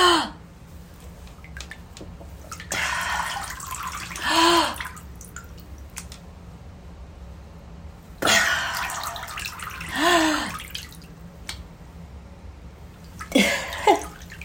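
Water sloshes as a face submerges and resurfaces, followed by a loud, deep breath, repeated a few times with quiet drips and stillness between.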